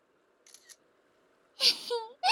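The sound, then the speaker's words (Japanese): A smartphone camera shutter taking a photo: two brief, faint clicks, followed by a short burst of voice. “スマホスマホ、 よし。ほら、もっとこっち寄って。はい、撮るよ。”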